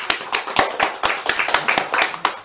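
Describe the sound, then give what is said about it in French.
Applause from a church audience after a teaching, a burst of dense hand clapping with sharp irregular claps at a steady loud level, with no talking over it. “Applaudissons pour le frère.”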